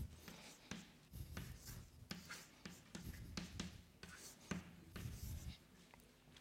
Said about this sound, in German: und dann schreibe ich auch die Transkription gleich